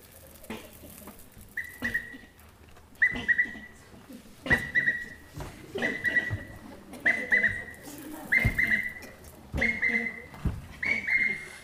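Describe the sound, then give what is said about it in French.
Common quail song: short, clipped whistled phrases repeated at a steady interval, about eight times, mid-pitched and moderately loud over low thumps and faint background noise. “C'est le chant de la caille des blés.”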